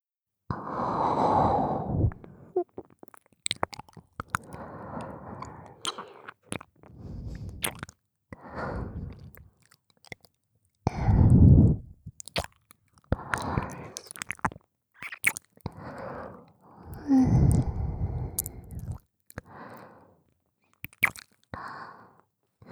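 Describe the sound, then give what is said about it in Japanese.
Wet licking on an ear in an ASMR session: many soft, moist smacks and squishes come in short, irregular bursts, separated by gentle breaths and quiet pauses. “あの時のご婦人は殿方のお耳をこのように舐めていたのですが、気持ちいいでしょうか。”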